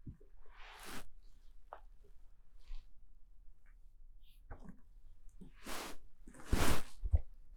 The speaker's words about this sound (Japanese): ちょっとごめんね、ガサガサしちゃって。